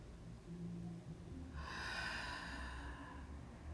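Slow deep breath during a guided breathing exercise, a soft airy rush that swells and then fades out gradually over faint low background hum.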